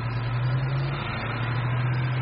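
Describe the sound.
Steady lorry engine running, a continuous low drone with a strong, even hum that stays constant throughout, with no talk over it.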